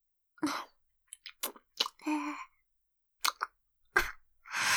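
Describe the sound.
ASMR roleplay of ear eating: several short, separate wet mouth sounds of nibbling and chewing with quiet gaps between them, some brief clicks and a few longer smacking bursts.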